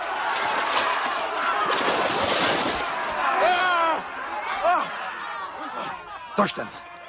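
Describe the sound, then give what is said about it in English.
Water splashes and sloshes in a rough, sustained churn as a Roman centurion's head is shoved underwater by a general, followed by strained voices and gasping bursts. “The general shoves Quintus's head underwater.”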